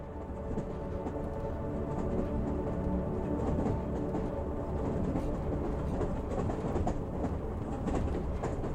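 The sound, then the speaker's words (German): Train rolling along rails in a steady rhythm, heard as a continuous rumbling clatter of wheels over track at even loudness for the whole stretch, with no voices. “Gleichmäßigem Takt rollt der Zug weiter”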